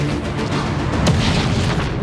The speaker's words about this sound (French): Ta centrale va exploser, papa.